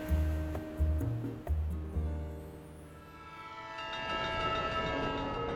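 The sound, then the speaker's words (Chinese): A train departs with a few short horn-like chord blasts, then a brighter, sustained horn tone rises over a low rolling rumble, all fairly quiet. “假日号列车即将发车，祝你旅途愉快。”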